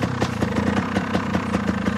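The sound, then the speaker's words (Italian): A motorcycle engine idles as a rider prepares to shift into first gear. It gives a loud, steady, rapid pulsing throb with an even rhythm throughout and no voices. “Metti la prima. Metti la marcia.”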